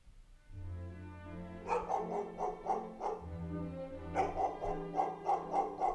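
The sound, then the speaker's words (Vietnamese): A black dog barks in a yard at night in two quick runs of short, repeated barks, fairly faint over low background noise. “Ở ngoài sân, thi thoảng con chó mực lại sủa nhấm nhằng, rồi gầm gừ.”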